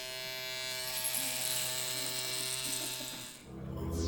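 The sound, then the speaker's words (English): An electric razor buzzes through a quick shave, a loud, steady, high whine that dips briefly near the end before the motor's drone resumes. “Step one, a quick shave.”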